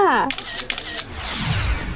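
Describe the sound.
A phone camera shutter snaps during a selfie, a few crisp, brief clicks.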